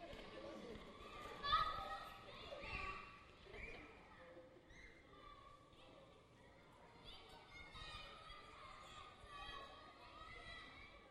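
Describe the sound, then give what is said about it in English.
Children playing, with many young voices shouting and chattering at once amid scuffling movement, one louder shout standing out early, then a busy, fluctuating din that never drops to quiet. “It's the sound of kids playing.”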